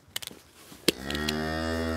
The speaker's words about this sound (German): Ja, wir können die Kuh auf jeden Fall rauslassen. Die kann jetzt wieder zu den anderen.